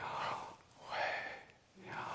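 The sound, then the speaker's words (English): Audible breathing in a sermon, offered as the sound of the divine name: a few slow, soft, airy breaths that swell and fade, with short quiet gaps between them. “it's even been said by some of the rabbis that this name of God is actually the sound of the breath.”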